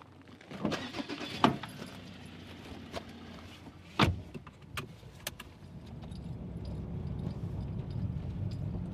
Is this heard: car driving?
yes